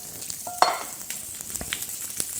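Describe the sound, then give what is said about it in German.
Food frying and sizzling in neutral oil, a steady bright hiss broken by scattered clicks and scrapes of stirring, with one louder clatter near the start. “Aber soll auch gleich anfangen zu braten. Ne? Und da hast du auch wieder neutrales Öl genommen, ne? Dann nehme ich jetzt auch neutrales Öl.”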